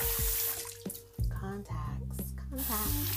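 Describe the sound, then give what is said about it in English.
Water runs from a tap while hands are washed at a sink, a steady rushing stream with splashes and small clatters, and a voice talking over it. “Oh, I'm not using the bathroom, guys. I'm washing my hands because I'm putting in my”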